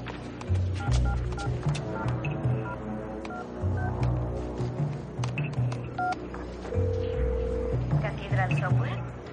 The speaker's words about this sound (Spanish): marca un número en el móvil robado